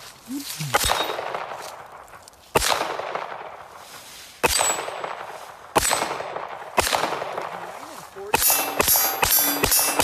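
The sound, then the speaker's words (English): MP5 submachine gun being fired: a handful of loud, sharp single shots, each ringing out and decaying, spaced a second or two apart, then a quick string of rapid shots at the end. “first time shooting MP5”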